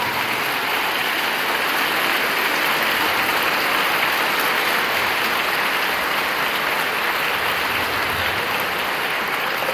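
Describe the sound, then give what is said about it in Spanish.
Audience applause at a religious talk, a dense, even wash of clapping that holds steady and loud for the whole clip with no talk. “Me hace el favor, le da un aplauso a la Virgen.”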